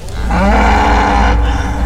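A cow's moo comes from a golden calf statue: one loud, drawn-out, low bellowing call that swells and holds steady before tailing off.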